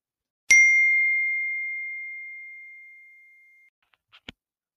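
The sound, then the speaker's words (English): A phone text message notification ding: a single bright, clear chime that rings on and fades slowly over about three seconds, followed by a few faint, brief clicks. “That was the sound of someone getting a text message”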